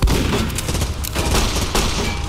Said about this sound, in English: Oh shit, that thing's already got its laser going again. Take cover behind those wall panels.